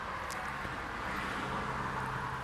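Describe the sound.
Cars pass on a nearby main road through a mountain park beside a pond, a steady, soft rushing hiss of traffic with no distinct single pass standing out.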